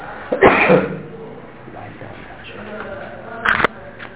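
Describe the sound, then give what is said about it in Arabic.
Coughing heard amid a man's speech, with a couple of short, harsh coughing bursts, one near the start and a briefer one later. “هذا ما في إلا كحة زين”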